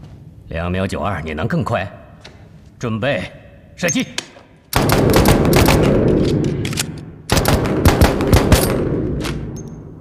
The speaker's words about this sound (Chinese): 而且还抛光了上膛的滑道，你想试试吗？给，好，准备，准备，射击。